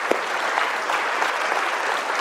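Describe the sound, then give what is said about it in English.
Applause from a church audience cheering a mother of a large family: a dense, even patter of many hands, moderately loud and steady for about two seconds, with no talk over it. “let's give Amy a hand. Anybody over six probably needs some applause today.”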